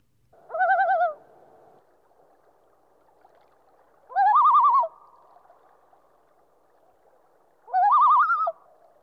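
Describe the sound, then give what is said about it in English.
Loon tremolo calls at normal speed: three separate bursts of rapid, wavering, laughing notes with bright harmonics, each about half a second long and separated by quiet gaps of a few seconds. “We will now hear the three tremolo variations played at normal speed, and then slowed down to one-half speed to approximate the way the loon hears the temporal features of the call. First, normal speed.”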